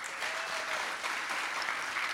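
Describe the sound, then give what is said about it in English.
Audience round of applause welcoming a speaker introduced at a sports media event; dense, steady clapping from many hands with no voices over it. “Big round of applause.”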